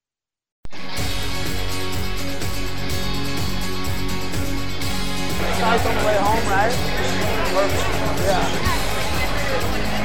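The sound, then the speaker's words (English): Crowd chatter fills a busy venue where a show is running and TV screens are on, a dense, continuous hubbub with voices talking throughout at an even level. “And we got quite the atmosphere here. A lot of folks out here checking out the show, checking out the various TV screens,”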